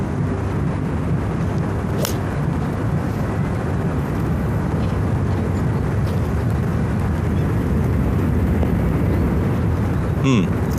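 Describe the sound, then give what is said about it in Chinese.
Passenger airliners pass overhead near a golf course close to an airport, producing a steady, broad roaring rumble that fills the whole clip without a clear peak. “比赛的球场距离旁边的机场也很近啊，头顶上这个客机往来也会带来巨大的噪音。”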